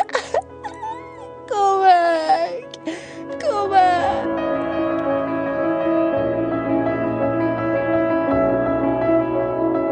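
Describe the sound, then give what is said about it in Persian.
Crying and sobbing as a sound effect: a string of wavering, whimpering wails with sliding pitch for about four seconds, then giving way to a sustained, steady tonal drone that continues to the end. “از شدت ناراحتی زد زیر گریه و گفت من دیگه نمیتونم.”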